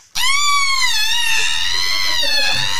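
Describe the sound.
A voice imitates a loud scream in one sustained, high-pitched cry that lasts nearly three seconds, its pitch wavering slightly and its loudness steady throughout.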